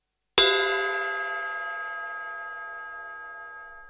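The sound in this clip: One gong stroke, the signal in a language-course drill, gives a sharp metallic attack and then a clear, sustained ringing tone that slowly decays, with nothing else heard.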